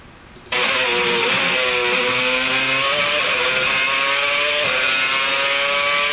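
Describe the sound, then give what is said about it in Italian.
Racing car engine heard on board, a steady, loud, high-pitched drone that starts abruptly after a brief moment and holds a monotonous tone with only small pitch dips throughout. “Vi invito con me a salire sulla macchina di Alonso e prestare molta attenzione al rumore che sentite. Siete sulla macchina, ok? Quindi vi state muovendo insieme alla sorgente che produce il rumore.”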